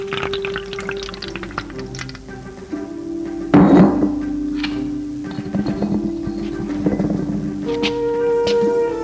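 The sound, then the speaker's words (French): A bottle and a glass are put back into a sideboard, marked by a short clattering knock midway through, with a few lighter taps and a steady background hum around it. “Puis remet la bouteille et le verre dans le buffet.”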